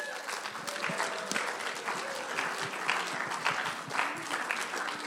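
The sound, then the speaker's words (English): Audience applause welcoming two speakers to the stage: a dense, steady wash of many hands clapping, sustained evenly throughout. “So without further ado, I'm going to welcome Jake and Du to the stage. Let's give him a hand.”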